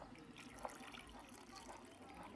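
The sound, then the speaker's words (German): Water trickles steadily as it is poured into a cooking pot of potatoes for mash, filling it until they are just covered; the pour is faint and continuous throughout. “Ich wollte gerade sagen, da brauchen wir ein bisschen Wasser, oder? Kannst du gerade hier reingießen, dass es gerade so bedeckt ist.”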